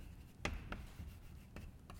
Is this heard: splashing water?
no